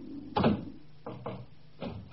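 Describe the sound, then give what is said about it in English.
A door is shut with a single heavy, loud thud, followed by a few fainter knocks and bumps. “Shut the door!”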